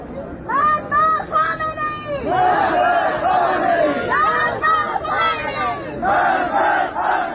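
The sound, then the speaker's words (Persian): A large crowd loudly chants anti-government slogans at a cemetery ceremony in Iran, held under heavy security. The chanting is rhythmic and continuous, with many voices shouting in unison over a dense crowd murmur. “ویدیوهای دریافتی از این مراسم نشان می‌دهد که با وجود جو شدید امنیتی در اطراف این آرامستان مردم شعارهای علیه حاکمیت سر دادند.”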